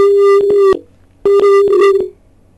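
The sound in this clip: Telephone line tone during a phone-in call that is breaking up: two bursts of a buzzy, steady mid-pitched tone, each chopped by brief dropouts, separated by a quiet gap and fading out at the end.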